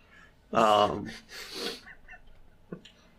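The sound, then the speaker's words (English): A voice imitates an angry bird squawk: two loud, harsh, raspy bursts in quick succession, the first stronger, followed by a brief faint sound in otherwise quiet surroundings. “Squawk angrily because my chair got stolen.”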